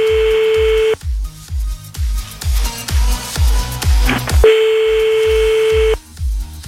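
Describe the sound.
Telephone dialing for an outgoing call: a steady tone, then a quick run of short key beeps, then the steady tone again, all over a regular thumping beat.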